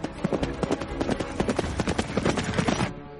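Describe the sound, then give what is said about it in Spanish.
A horse galloping away on a snowy medieval landscape: rapid, rhythmic hoofbeats pounding in a steady, driving pattern, loud and continuous before cutting off near the end. “Se aleja al galope mientras las llamas consumen la fragua.”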